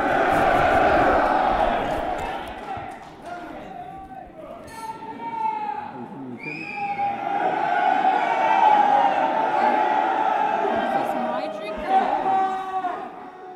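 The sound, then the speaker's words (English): A crowd of over 1,500 Marines roars at the 241st Marine Corps birthday ball, a sustained, loud mass of shouting voices with whoops and hollers rising throughout. “That's the sound of over 1,500 Marines at the 241st birthday.”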